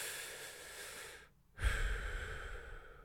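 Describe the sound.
Breathing in and out, heard as airy, breathy rushes of breath alone with no talk, broken by a short quiet pause before a stronger breath with a low rumble.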